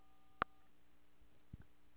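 A voicemail system gives a single short electronic beep to mark the start of recording over faint telephone-line hiss, followed later by a couple of soft low thumps.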